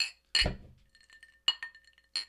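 Whiskey glasses clink together in a toast. A few sharp, bright glass clinks ring out with short, shimmering tails, spaced apart by quiet gaps and fairly soft overall.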